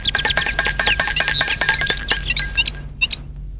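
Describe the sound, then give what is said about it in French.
A bell rings at the garden gate of a white house, a rapid, bright metallic trill of many quick strikes that runs for over two seconds, then a few fading rings. “sonne au portail.”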